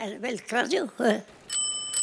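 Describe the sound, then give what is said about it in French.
A bicycle bell rings twice, bright short metallic dings after a voice speaks, as a jingle for cycling through Flanders. “Dring Dring, le podcast de Dardar qui vous fait découvrir la Flandre à vélo.”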